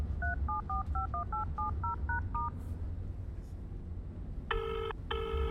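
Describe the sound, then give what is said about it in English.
A telephone number is dialed on touch-tone keys: about ten quick beeps of varying pitch in a steady run over a low hum. After a short gap come two bursts of a brighter ringing tone. “I dialed the number.”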